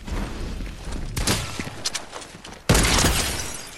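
Sniper rifle shots in the video game Fortnite ring out as two sharp, loud cracks with lingering noisy tails, the second harder and louder, over a steady bed of game noise.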